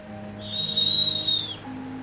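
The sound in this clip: An owl call in a snowy setting: a single high, steady whistling note that lasts about a second, over a faint low hum.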